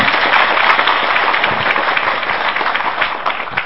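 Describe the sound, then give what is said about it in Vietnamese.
Loud, sustained applause from a Buddhist lay audience at a dharma talk, honouring a nun. Many hands clap in a thick, even wash that holds steady and fades slightly toward the end. “Xin các Phật tử cho một tràng pháo tay.”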